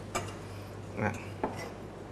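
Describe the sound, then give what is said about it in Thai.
Sliced shallots, about three tablespoons, are dropped into a mixing bowl, giving a few faint clinks and soft clatters against the bowl. “หอมใกล้ได้แล้วครับอันนี้ก็6ลูกหรือว่าปริมาณประมาณ3ช้อนโต๊ะนะครับครับใส่ไปในอ่างผสมได้เลยครับ”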